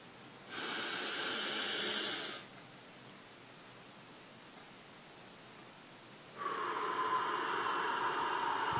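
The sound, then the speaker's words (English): A slow breathing demonstration: a soft, hissy inhale of about two seconds, a long quiet hold, then a steady, breathy exhale that continues to the end. “You can slow that down if that's not comfortable, and you can let the breath go a little bit slower as well. I'll demonstrate.”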